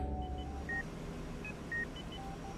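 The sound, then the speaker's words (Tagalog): Cellphone text message notification tone, a few short high-pitched electronic beeps, faint over a low, steady hum. “biglang nakatanggap ng mensahe sa cellphone si Randy kay Aling Helen”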